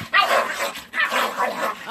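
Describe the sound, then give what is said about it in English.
Dogs fighting and barking, harsh overlapping barks and yips in two rough bursts over about two seconds, fairly loud. “That was a dog's fighting in the background.”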